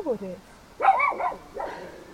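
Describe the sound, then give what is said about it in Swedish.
A dog barks and yips in the countryside in a few short, high, tonal bursts separated by brief pauses. “nu vet alla att det är en hund som skäller”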